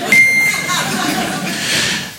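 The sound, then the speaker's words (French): An answering machine's beep sounds as a short, steady, high tone near the start, followed by noisy background that carries on after it. “celui que vous attendez tous, il est connu de New York à Tokyo. C'est une star internationale, il est là pour vous ce soir, mesdames et messieurs, le bip.”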